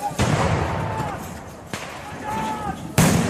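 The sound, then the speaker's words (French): Dispersal grenades thrown by gendarmes during a violent clash with ZAD occupants: three sharp, loud bangs spaced over a few seconds, over voices and a rough background of commotion. “Une scène d'affrontement violente, chargée par les gendarmes. Les zadistes reculent. Les forces de l'ordre utilisent des grenades de désencerclement.”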